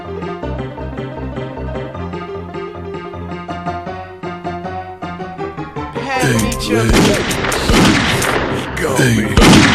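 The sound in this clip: Video game gunfire during an ambush: dense, loud bursts of shots and thuds erupt over the last few seconds, cutting across a steady musical backing that runs throughout.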